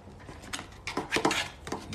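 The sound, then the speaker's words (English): Spoon scraping out the last bits of quinoa from a bowl: several faint, short scraping strokes at an irregular rhythm, with no talk. “Still scraping the bowl. I just see little bits of quinoa.”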